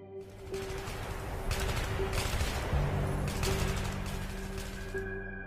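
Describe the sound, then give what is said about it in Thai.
AK-47 rifle fire erupts in a forest, dense rapid automatic bursts running into a fusillade over a steady low hum, fairly faint overall. “ยังไม่ทันที่ทุกคนจะลุกขยับเสียงปืน AK-47 ก็แผดเสียงคำรามขึ้น”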